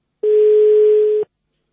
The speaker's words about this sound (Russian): Идет звоночек. Одну секундочку.